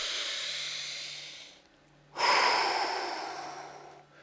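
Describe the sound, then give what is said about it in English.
A deep breath taken during a tapping exercise: two long, airy, hissing breath sounds separated by a short pause, fairly quiet and with no talk. “Take a breath.”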